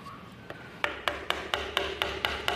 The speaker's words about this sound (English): So the shorter the hits, the faster the hits, they're cutting a circle.